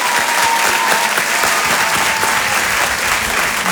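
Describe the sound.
A comedy audience at a Rire et Chanson show greets a comedian's entrance with loud, sustained applause, many hands clapping densely and evenly from start to finish.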